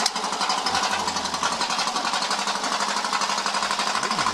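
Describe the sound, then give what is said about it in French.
A Renault R12 Gordini car engine runs with a loud, rapid, rattling pulse, holding steady throughout with an odd, buzzing edge to its tone. “Il y a un mec qui filme le démarrage de sa R12 Gordini. Mais elle fait un bruit bizarre la R12 Gordini là.”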